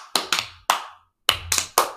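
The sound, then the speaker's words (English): Six sharp hand claps in two groups of three, each a crisp slap with a short decay, separated by a brief pause, over a faint low hum. “So if that was awkward and you know it, clap your hands.”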